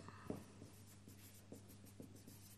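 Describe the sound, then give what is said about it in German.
Faint scratching of a pen on paper as a sketch is drawn by hand, a few short strokes spaced out unevenly over a quiet background. “Vielleicht male ich das mal auf. Eine Skizze ist immer mehr wert wie viele Worte.”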